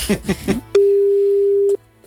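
A telephone ringback tone while calling someone: one steady, clean, mid-pitched tone lasting about a second, loud and alone, then cut off into near silence.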